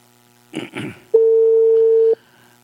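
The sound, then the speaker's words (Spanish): A telephone line tone while a call is being placed, heard as a single steady, mid-pitched beep of about one second, loud and on its own, after a short muffled burst of sound. “Y ahí está, le estoy llamando”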